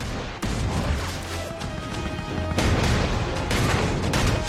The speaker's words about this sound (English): The Greyhound's guns fire relentlessly at the half-surface submarine.